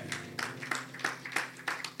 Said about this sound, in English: Clap for the Lord Jesus.